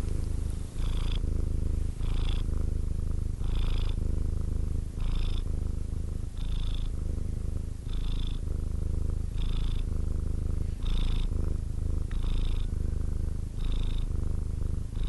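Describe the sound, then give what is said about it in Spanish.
A cat purring steadily and loudly for the whole stretch, a low continuous rumble that swells in regular rhythmic cycles with each breath, with no other sounds. “Alguna vez escuchamos con atención el ronroneo de un gato. Escuchen.”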